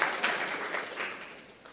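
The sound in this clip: An audience claps by hand in a short burst of dense, moderately loud applause that tapers off toward the end.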